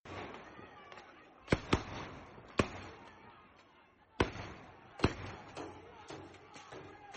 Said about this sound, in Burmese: မန္တလေးမြို့မှာဗုဒ္ဓဦးနေ့ညပိုင်းအမှောင်ကျချိန်မှာတော့လူကြုံရေးတပ်ဖွဲ့ဝင်တွေရဲ့ပစ်ခတ်တံမျိုးစုံကိုကြားကြရပါတယ